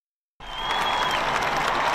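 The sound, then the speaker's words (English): A large crowd cheers and applauds as the Queen and working members of her family step onto the Buckingham Palace balcony at the end of Trooping the Colour. After a brief silence the sound bursts in and swells into a loud, steady roar. “Thousands of people cheer as the Queen, with working members of her family, go onto the balcony of Buckingham Palace at the end of the Trooping the Colour event.”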